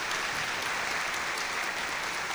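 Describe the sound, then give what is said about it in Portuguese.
Applause from a church audience, a steady, even wash of many hands clapping at constant loudness from start to finish, with no voices standing out. “Como uma forma de agradecimento aos nossos amigos e amigas de Cristo Rei, vamos dar uma salva de palmas”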